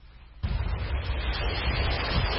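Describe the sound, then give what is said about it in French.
Sea waves break on a polluted beach near Dakar's port, where wastewater from a canal crossing an industrial zone flows in. After a brief quieter start, a low, rumbling roar of surf surges in abruptly and continues steadily. “Ici, les vagues viennent accueillir les eaux usées du canal 6 qui traverse une zone industrielle à quelques encablures du port de Dakar.”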